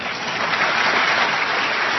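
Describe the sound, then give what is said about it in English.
Crowd at a political rally applauds and cheers loudly, a dense, steady wash of clapping that holds at an even level throughout with no pause. “Yep, that's when the crowd went nuts, cheering for unemployed Americans.”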